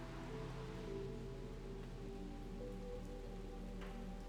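Steady rain falling on a surface, a soft continuous patter of dense drops with no breaks, joined by a low sustained tone underneath.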